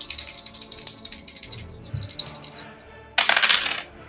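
Six-sided dice rolled during a tabletop role-playing game: a rapid clattering run of clicks that gradually slows, then a second, louder rattle near the end.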